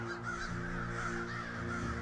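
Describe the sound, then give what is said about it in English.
Crow cawing: harsh, nasal caws repeat over a steady, even background hum, moderately loud and with no voices. “Whenever something bad is going to happen on a movie, you hear a crow call in the distance.”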